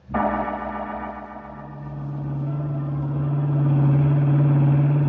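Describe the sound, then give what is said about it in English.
Engine of a blue roadster driving along a twisting, damp bayou road: a steady droning motor hum that starts abruptly and swells slightly louder toward the end, with no voices. “The blue roadster gathered moisture on its windshield as I drove down the twisting bayou road.”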